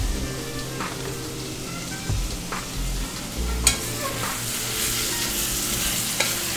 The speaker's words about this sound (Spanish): aquello debe estar ya sofrito y entonces vamos a ponerle la carne y así la carne pues también libera el saborcito